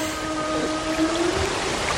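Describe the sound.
Whale vocalization: a low, sustained tonal moan with layered harmonic lines and a brief brighter sweep near the middle, over a steady watery hiss.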